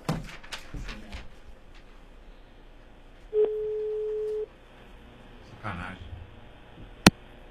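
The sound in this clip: A telephone ringback tone on a call waiting to connect, heard as one steady mid-pitched tone lasting about a second, with faint murmured voices before and after and a sharp click near the end.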